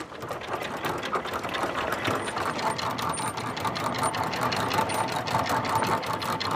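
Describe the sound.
Anchor chain of a large boat being raised at the bow: a rapid, steady mechanical clatter of links, even and continuous throughout, with no voices.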